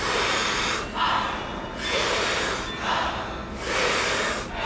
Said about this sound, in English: So big, powerful inhale, soft exhale. We do it rhythmically together, and it sounds like this.